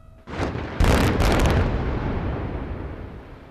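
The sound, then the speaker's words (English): A controlled blast in a new, modern diamond mine in eastern Sierra Leone: a sharp onset, then a heavier, deep explosive boom whose broad rumble slowly fades over several seconds. “This wasn't a bomb, but a controlled detonation in a new, modern diamond mine in the east of the country.”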